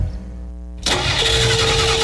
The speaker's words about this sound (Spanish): Estoy aquí donde mi novia y no me arranca el carro.